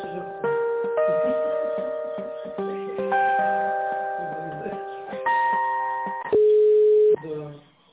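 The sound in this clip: Electronic tones play over a telephone line while a call is transferred to a manager. A stepping sequence of steady, pure pitches ends in one longer held tone and a brief fade.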